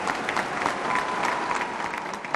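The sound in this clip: A crowd applauds a church speaker addressing young people, with dense, steady clapping that holds at an even, moderate level for the whole clip.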